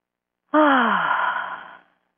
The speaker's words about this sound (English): So, if you're ready to take this on, take a deep breath.